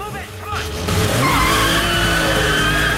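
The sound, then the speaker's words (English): A car skids in during a chase, its tires squealing loudly and steadily over a roaring engine in a dense, continuous burst of noise. “Another car arrives as Stan's getting to grips with the gears.”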